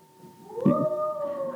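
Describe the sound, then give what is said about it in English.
A child's voice imitating a howl: one drawn-out vocal wail that slides slightly upward in pitch, then holds steady, moderately loud and alone. “If you're under 8, give me the best howl you can get.”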